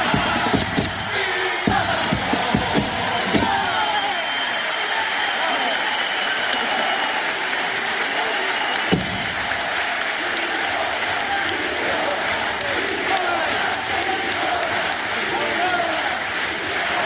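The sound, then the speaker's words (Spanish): A theater audience reacts to the closing line of a pasodoble with loud, sustained applause and cheering, some shouts rising over continuous clapping. “Qué bien lo vende el grupo y mira cómo reacciona el público a este remate. Del paso doble.”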